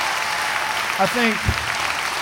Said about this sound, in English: Paul Boersma, and clap if you agree with this statement